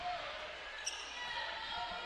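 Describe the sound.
A basketball is dribbled during a game, a faint bounce against the constant din of the crowd.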